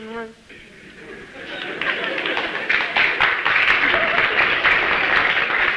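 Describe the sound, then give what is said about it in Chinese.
Audience applause at a live stage performance. It rises after a brief voice and a quiet opening into steady, moderately loud clapping, with crowd chatter underneath. “那这鼓掌的人不多呀，鼓掌的人都是南方人 啊， 北方人他还是没听懂。”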